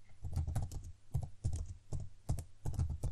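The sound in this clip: Someone quickly jots down a note with rapid, light tapping that comes in quick irregular bursts, fairly faint and without any voices.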